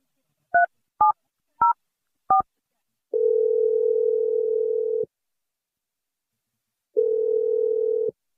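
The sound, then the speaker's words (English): A telephone number is dialed on a keypad: four short touch-tone beeps, then two long, steady, lower tones separated by a pause. “I'm dialing the number right now.”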